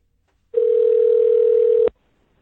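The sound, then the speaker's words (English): A steady telephone tone sounds while a call is placed to someone, one unbroken mid-pitched beep lasting just over a second. It plays alone, then cuts off abruptly. “Hold on, let me give him a call back.”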